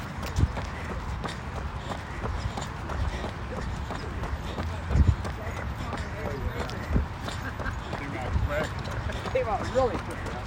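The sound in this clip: Running footsteps of a person setting off on a run and settling into a jog, a rapid, steady rhythm of many soft thuds under constant rushing noise.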